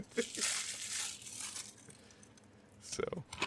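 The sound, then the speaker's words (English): Plastic wrap is torn and crinkled off a video game case, making faint, uneven crackling and ripping bursts that thin out in the middle and pick up again near the end. “So as he unwraps a game on stream.”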